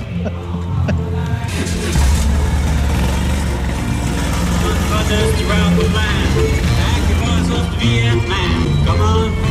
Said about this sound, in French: Et donc là, on est parti en moto. On traverse la place de la Comédie à Montpellier.